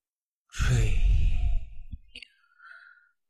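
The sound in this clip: A long, forceful breath blown out through the mouth during a breathing exercise, a loud breathy rush lasting about a second. It tapers off, then fainter, shorter breaths follow.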